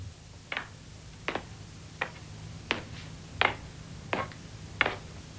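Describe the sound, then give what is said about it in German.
A clock ticking: seven crisp, evenly spaced ticks at a steady rhythm, fairly faint, heard alone over a low background hum. “Tick, tock, tick, tock.”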